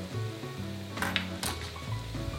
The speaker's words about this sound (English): And then I'm gonna just kind of saute that so that all of the spices are well integrated into the yams.